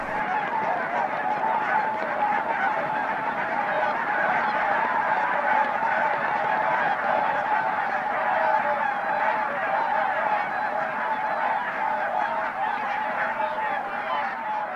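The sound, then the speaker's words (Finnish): A huge flock of panicked geese honks at dusk as an eagle passes overhead, a dense, loud, unbroken chorus of overlapping calls that holds steady throughout, with no voices. “Tuhannet siipiparit lyövät yhtä aikaa. Hanhet ovat paniikissa, joutsenetkin hermostuvat.”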